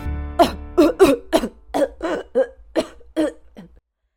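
A girl coughs repeatedly while clutching a swim ring after nearly drowning: a long, uneven run of hoarse, spluttering coughs in quick succession, loud and with no other sound.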